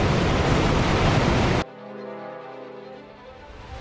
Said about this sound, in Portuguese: Vai aumentando cada vez mais o, a zoada da cachoeira.